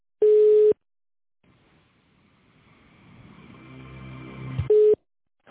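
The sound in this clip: Telephone tones while a call connects to an operator: two short, steady mid-pitched beeps separated by a pause in which a low rumbling noise gradually swells.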